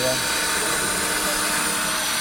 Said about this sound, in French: C'est une perceuse, ça ou pas?